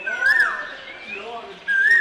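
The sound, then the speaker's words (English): Birds sing in a quiet, car-free, tree-lined alley on an island: two short, bright whistled chirps, one near the start and one near the end, with a softer wavering note between them. “There are no cars here on a quiet tree-lined alley on the island of Gulangyu in Xiamen, just birds.”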